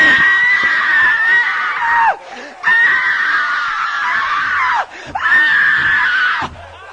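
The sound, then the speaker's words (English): A preacher imitates a game show contestant's excited shouting with three long, high-pitched screams, each ending in a downward slide, separated by short pauses. “And she shouts the roof off a house. And everybody joins in and shouts with her. You've seen them do it, ain't you? Amen. Yeah, you have. You have. You people don't believe in it. You've seen them shout. And they jump up about right here and go,”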